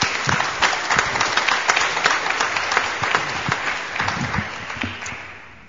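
A church audience at First Baptist Church applauds to welcome a newcomer, with steady, dense clapping that holds evenly and then fades out at the end.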